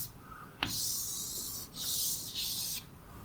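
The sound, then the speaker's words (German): Scratchy rubbing strokes of someone drawing a small sketch of a CPU during a lecture. A few sustained, hissing strokes are broken by brief pauses, with no voices. “Ich mache bloß mal so eine kleine Skizze.”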